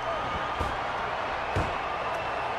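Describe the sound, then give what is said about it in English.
A wrestler's scoop slam hits the mat with a couple of heavy, dull thuds standing out from a steady, noisy background. “Kurt Angle with the reversal of that punch. And the scoop slam.”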